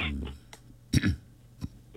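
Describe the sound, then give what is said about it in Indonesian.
A short cough, a quick double burst near the middle with a smaller throat-clearing sound after it, fairly faint against quiet background noise. “Nak batuk pula.”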